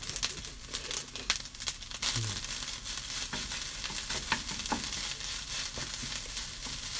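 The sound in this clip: Fried rice is stir-fried in a pan with a wooden spatula at home. Irregular sizzling mixes with crisp scraping and clicking strokes as the rice is broken up and turned, fairly quiet and without talk.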